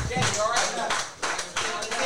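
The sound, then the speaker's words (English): Rhythmic clapping in unison from a crowd at a live wrestling show, steady repeated beats under a man's voice talking over it. “Come on, ladies and gentlemen, let's clap them up, let's keep them going, let's keep them all out there, ladies and gentlemen!”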